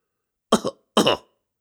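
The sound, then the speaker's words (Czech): Someone clears their throat in a room: two short, rough, husky bursts separated by a brief pause, heard alone in otherwise silent surroundings. “Odkašlal si najednou někdo v místnosti.”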